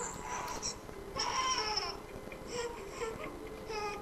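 A fussy infant cries and whimpers in several short, broken bursts, with fretful babbling between them, at a fairly soft level.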